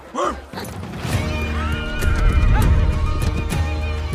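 A horse neighs at the start with a short, high, wavering whinny, followed by a busy stretch of low rumble and hoof clopping that continues to the end.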